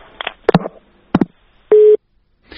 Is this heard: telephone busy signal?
yes